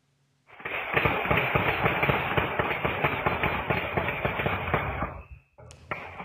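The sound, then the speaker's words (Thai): Rapid burst of many sharp bangs like gunfire, from a late-night shooting at a house and a pickup truck in Phanat Nikhom, Chonburi, Thailand. The cracks come in quick succession for about five seconds, then stop briefly before a few fainter sounds. “หลังจากเกิดเสียงดังคล้ายปืนเมื่อสักครู่นี้ค่ะ”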